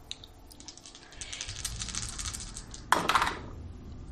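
A handful of dice, including an eight-sided die, rolled during a tabletop role-playing game: faint light rattling gives way to a sharp clatter of quick clicks that settles toward the end.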